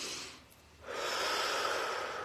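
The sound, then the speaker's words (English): A deep breath taken during a short guided pause: a long, steady, airy rush of breathing that swells after a brief quiet start and stays loud to the end, with no talking. “Close your eyes. Just take a deep breath.”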